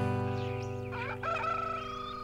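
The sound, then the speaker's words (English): A rooster crows once in a bright, wavering call that rises and falls in pitch, sounding over steady sustained tones. “Hear that rooster crowing.”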